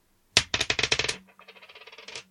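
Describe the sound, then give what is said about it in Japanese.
Dice rolled onto a hard surface: a quick burst of sharp clattering clicks, then a softer, fading rattle as they settle. “では、サイコロを私が振ります。”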